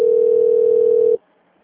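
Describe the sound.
A single steady telephone line tone plays while a call is transferred. It holds one level, mid-pitched note for just over a second on its own, then cuts off abruptly.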